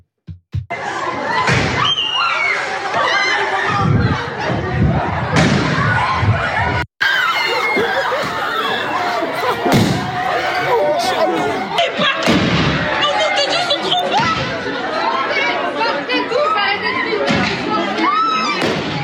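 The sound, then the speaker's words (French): Firework mortar shots go off inside a high school in Chelles, Seine-et-Marne, loud thumping bangs within a dense, agitated roar of students shouting and chattering. The crowd noise holds throughout, with a brief cut near the middle. “on est en Seine-et-Marne, avec des tirs de mortier d'artifice à l'intérieur du lycée. Regardez la réaction des élèves.”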